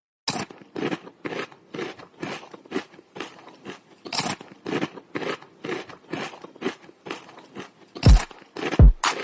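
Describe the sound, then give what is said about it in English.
Crisp, loud crunching as a man bites and chews chips: a quick, irregular run of many dry crunches with no talk, ending in two heavier, louder bites. “It was like some dude eating chips, and you made a sick ass beat with it.”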